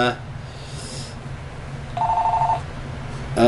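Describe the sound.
A telephone rings once, a short warbling electronic ring lasting about half a second over a low, steady background.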